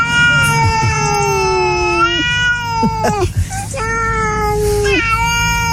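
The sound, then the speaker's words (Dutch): A cat meows at night in a garden: a few long, plaintive wailing calls, each dipping in pitch at the end, sounding mournful and close to an infant's cry. “Dit hoor ik wel eens 's nachts bij mij in de tuin. Oh ja, inderdaad. Het klinkt ook een beetje zielig. Ja, ja, ja. Nou, we gaan het hebben over katten, dat zal wel duidelijk zijn.”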